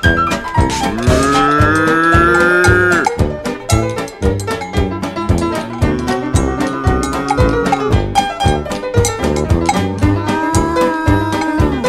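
Cow mooing, from a cow that overate and felt unwell: about three drawn-out, low, harmonic moos, loud over a busy clattering background.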